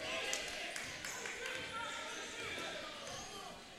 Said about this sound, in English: Rice will bring it up. Right-hand dribble again.